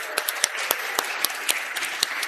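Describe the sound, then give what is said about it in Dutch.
Applause for the competing teams at a quiz game: dense, steady clapping from a crowd, with a few sharper individual claps standing out above the wash. “Geef ze een hartelijk applaus.”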